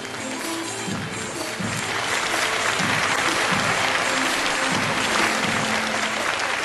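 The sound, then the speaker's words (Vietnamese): Loud audience applause greeting the first child contestant at a Vietnamese-language speaking contest. The clapping is dense and continuous, swells slightly after the opening second and then holds steady to the end. “xin quý vị một tràng pháo tay thật lớn cho thí sinh thứ nhất, bé Lý Thị Mỹ Mã.”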